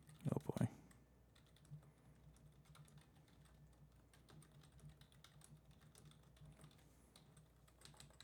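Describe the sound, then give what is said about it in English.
A keyboard being typed on as someone enters a paragraph: faint, rapid clicking keystrokes run steadily throughout, after a brief louder burst of sound at the very start. “It's like it makes you type a paragraph or something, and then I'm on edge.”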